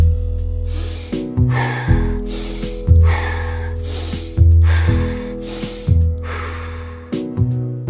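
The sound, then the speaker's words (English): Forceful rhythmic breathwork, each breath inhaled through the nose and pushed out through the mouth, repeating at an even tempo over steady tonal background music. “The inhale is driving through the stomach, through the nose, the exhale is a little bit more force out of the mouth”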